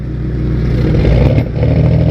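Engines of Senegalese air force Epsilon military training aircraft starting up at an air school airfield, a loud low steady rumble that swells slightly partway through, with no voices.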